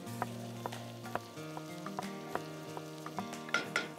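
Onions fry in a pan with a soft, continuous sizzle broken by scattered light crackles and pops. It stays fairly faint throughout, with no talking.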